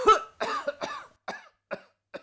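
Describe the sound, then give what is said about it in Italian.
A man lying on the ground coughs in a series of about seven harsh, dry bursts. The first are loud and close together, and the later ones come more spaced out and fainter. “L'unico rumore erano i colpi di tosse dell'uomo sdraiato ai suoi piedi.”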